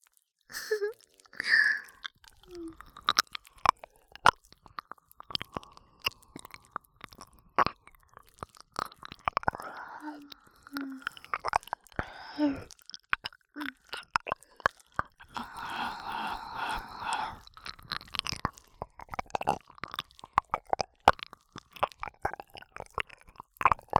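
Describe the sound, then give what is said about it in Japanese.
Wet ear-licking mouth sounds: many irregular soft smacks, slurps and tongue clicks made close to the ear, fairly quiet and continuing throughout with no clear talk. “それとも…お耳なめなめがいいんすか？”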